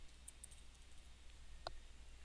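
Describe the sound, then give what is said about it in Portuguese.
A few faint computer mouse clicks while a DHCP scope is set up, short sharp ticks over a low steady hum. “Então, para isso, em cima de IPv4, vou clicar com o botão direito e então vou selecionar a opção Novo Escopo. Vou clicar em Avançar e vou dar o nome para esse escopo.”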